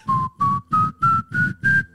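A person with dry lips whistling a musical scale: six breathy, evenly spaced notes climbing step by step, with a seventh just beginning at the end.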